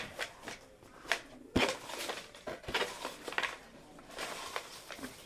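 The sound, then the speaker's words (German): Playing cards are shuffled by hand during a card game, giving many quick papery riffles and rustling bursts in an uneven rhythm, with a few sharper snaps among softer patter. “Einmal nochmal mischen, mischen, mischen, mischen, mischen.”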